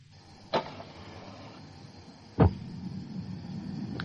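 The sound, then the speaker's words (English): Gas supply being switched on: two dull mechanical clicks, the second louder, set over a low steady hum that continues throughout, with no voices. “There. That's the gas on.”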